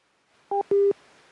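Phone-line disconnect tones follow the other party hanging up mid-call. Two clear electronic beeps sound alone over faint line hiss, a short one and then a longer, steady one.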